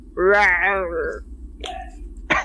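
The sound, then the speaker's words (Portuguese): A voice imitates a hungry stomach growling with a drawn-out, wavering voiced groan, followed by a couple of short clicky mouth sounds. “Na hora que tu fala comida, a, o estômago dela faz. Um...”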